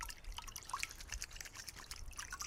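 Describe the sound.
Faint dripping and trickling water as someone washes the bandaged feet of people with leprosy, with many small, irregular drips over a soft, continuous wash of water.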